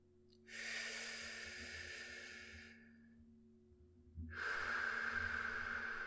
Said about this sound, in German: Atme erst einmal tief durch, mehrmals und kraftvoll.